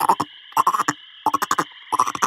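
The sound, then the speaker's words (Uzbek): A frog croaks in four separate clusters of rapid, rasping calls, each a quick run of loud pulses broken by short silences. “Baqa esa sichqonga qarab qichqiribdi.”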